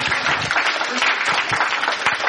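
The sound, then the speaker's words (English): Applause from a mission conference audience, with many hands clapping in a steady, dense wash and a few louder individual claps standing out. “Let's give them an applause.”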